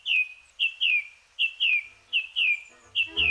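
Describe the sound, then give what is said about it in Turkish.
Birds singing at dawn in woodland: about nine short, high-pitched chirps, each sliding downward in pitch, repeat in a quick, uneven rhythm with no voices. “Şafak vakti kuşları dinlemek için çevrenizdeki ormanlık alana gidin.”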